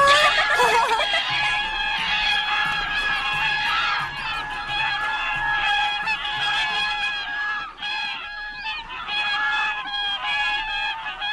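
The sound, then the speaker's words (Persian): Wild geese honk as they fly, a dense chorus of overlapping nasal calls that keeps up without a break the whole time. “وای ببین کیا پشتمونه، قازای وحشی دارن همراه ما پرواز میکنن.”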